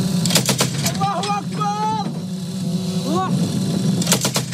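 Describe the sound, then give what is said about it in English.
Gunfire from pro-Ankara Syrian rebel fighters holding positions in the Talmalid area north of Aleppo. A few sharp, loud bursts come at the start and again at the end, with voices and a low, steady rumble between them. “That's the sound of guns from pro-Ankara Syrian rebel fighters holding positions Saturday in the Talmalid area north of Aleppo.”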